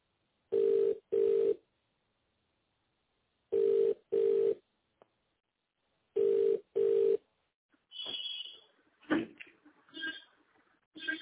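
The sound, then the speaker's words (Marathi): Telephone ringback tone of a call connecting: three pairs of double rings at a steady, even pitch with silent gaps between, followed by brief, faint sounds on the line. “तुम्ही just dial द्वारे connect होत आहात.”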